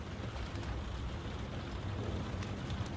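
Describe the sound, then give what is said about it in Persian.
Rain falls at night as a faint, even hiss that holds steady throughout, with no talk or other clear sounds. “هوا هم که بارونیه”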